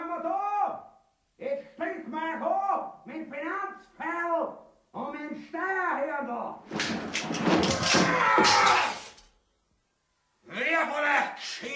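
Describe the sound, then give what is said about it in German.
Knocking on a door in a dramatized scene, heard as a loud cluster of thumping and rattling about two seconds long midway through. Stretches of talking voices come before and after it. “Hat's da nicht gerade an der Tür geklopft?”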